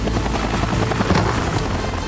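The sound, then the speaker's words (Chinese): Helicopter rotor and engine noise as the aircraft is piloted toward the last bottle in a bottle-opening challenge: a dense, continuous, loud whirring roar with a steady rhythmic beat and no pause. “他驾驶着直升机移到了最后一瓶的位置”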